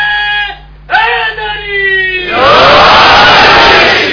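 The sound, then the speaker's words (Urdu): A crowd in an enclosed hall shouts the religious slogan Naara-e-Haidari in loud unison. The dense roar bursts in after a man's voice and holds steady to the end. “بند جگہ پہ آپ اونچی آواز میں نعرہ لگائیں گے آپ کی آواز خود آپ کو واپس آنی چاہیے.”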